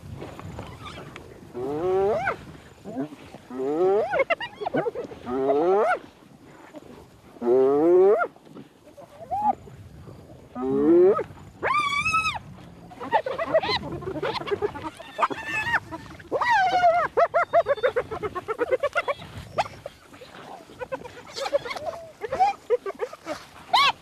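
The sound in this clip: Hyenas growl and howl as a crowded pack pushes over prey. Many loud, overlapping tonal calls and rough growls follow one another in quick bursts, with brief gaps, the whole time.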